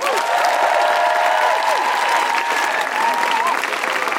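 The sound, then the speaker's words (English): Audience applause welcoming two guests, dense and sustained clapping that stays at a full, even level for over four seconds without any speech. “Please put your hands together and make an enormous Guilty Feminist welcome for Aloysius and Doris.”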